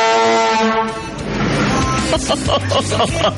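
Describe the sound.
A vuvuzela-style horn blown at six in the morning in a neighborhood: a loud, steady, buzzing blare rich in overtones lasts about a second, then breaks into rougher, choppier blasts.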